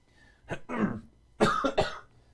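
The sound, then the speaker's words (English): A person coughs a few times in two clusters, harsh and rough, with a short pause between the bursts. “I apologize for this cough.”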